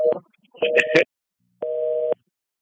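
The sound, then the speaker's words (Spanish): A telephone busy tone sounds after a dropped phone call. There are a few short tone bursts, a pause, and then a steady electronic beep of about half a second. “se cayó la llamada de Helen”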